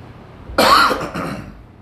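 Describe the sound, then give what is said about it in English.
A cough, one harsh burst that tails off into a shorter, rougher rasp, with no talking around it. “I'm gonna cough.”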